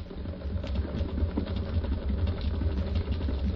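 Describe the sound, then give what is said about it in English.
An electric pump runs after being switched on, giving a steady, low mechanical hum and rumble with a faint rapid whir, constant throughout. “No, pump it. I built this pump especially for it. There's the pump switch”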